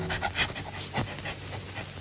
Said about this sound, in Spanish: Con el hocico pegado a la tierra, huele que huele, viene la perra, siempre siguiendo la pieza mejor para su dueño, el cazador.